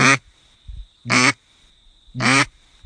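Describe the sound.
A human voice imitates a duck's quack three times. The quacks are short, loud, nasal bursts, evenly spaced, with no other talk.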